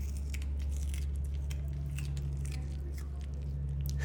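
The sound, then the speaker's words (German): Two zoo sloths smack and chew on uncooked sweet potato sticks. Soft, wet smacks and small crunches are scattered faintly over a steady low hum. “unsere beiden Faultiere, Usti und Charlie, die sind wach und topfit und schmatzen wieder die ganze Zeit so genüsslich”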